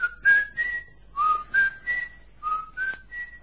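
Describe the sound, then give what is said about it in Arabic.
A whistled signal: three short phrases, each of three clear notes stepping upward in pitch, repeated with brief pauses between them, loud and alone with no talk. “عندما يخلو الشاطئ ويصلح الجو لعقد مؤتمر جديد أطلق صفارة هكذا.”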